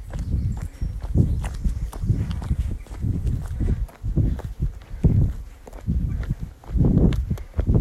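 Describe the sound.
Footsteps of a group running together during a paced workout, a steady run of heavy, rhythmic low thuds that repeat through the whole stretch with no voices.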